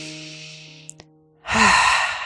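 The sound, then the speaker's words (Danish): A deep, audible breath during a yoga session: soft sustained tones fade out, then a breathy exhale swells up strongly and holds to the end. “Tag en vejrtrækning mere her, inden vi bevæger os videre op i high lunge.”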